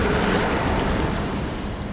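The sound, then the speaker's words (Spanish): Dense rushing water noise as a figure submerges in water in a film, a loud, even wash with a wind-like hiss and no talk. “Se sumerge en el agua.”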